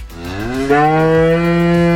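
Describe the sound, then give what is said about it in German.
A 14-year-old cow on a farm moos in one long, continuous low call. The call is loud and rich, swells slightly early on, then holds a steady pitch to the end, with no voices. “Sie ist eine ganz ruhige Kuh, die einfach gerne dasteht und wiederkaut.”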